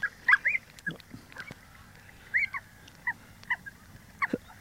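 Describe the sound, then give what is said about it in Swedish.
An oystercatcher pair calling at their nesting site on shell gravel: many short, sharp, high piping notes in irregular clusters, fairly quiet over a low steady background murmur. “Nu har vi strandskatepar som är där uppe i skalgruset och balar och grejer. Ja, det är de vi hör också här. Ja, det är de som chattar där.”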